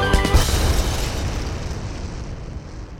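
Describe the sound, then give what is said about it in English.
A piano explodes in one loud, sudden boom with a brief crackling burst and a short tonal ring at the start, then a long rumbling fade to quiet. “Yes, he played so well and so fast and so hard that the piano exploded.”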